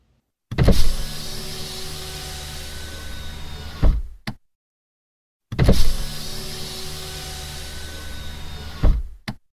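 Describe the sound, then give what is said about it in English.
Electric car window being opened, a steady motor whir that runs for about three and a half seconds and stops with a clunk. The same opening is heard twice, separated by a short silence. “The sound you just heard was the recording of an electric car window being opened.”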